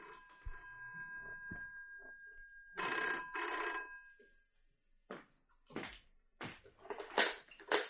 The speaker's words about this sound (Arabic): اقوم انا ارد على التليفون.